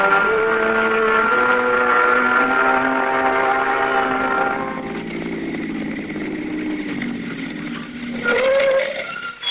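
A car engine drives along at a steady, droning hum with rich layered harmonics, at a moderate level throughout, with a brief swell near the end and no voices.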